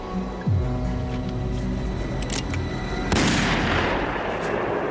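Gunfire from warning shots in a film scene: a couple of sudden loud bursts, each followed by a lingering, noisy rumble, within a dense background of sound.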